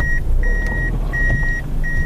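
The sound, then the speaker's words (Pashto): A black Toyota Fielder car pulling over at a roadside, its low engine rumble steady beneath a run of long, evenly spaced high electronic beeps. “دا د سړک پر سر خپل تور رنگ فیلډر موټر شاو مخ ته کوي ترڅو قانوني و دروي.”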